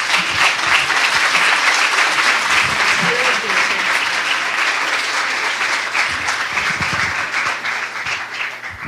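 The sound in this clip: Audience applause welcoming a guest speaker to a weekend gathering: dense, loud, sustained clapping from many hands that holds steady for the whole stretch and eases slightly near the end.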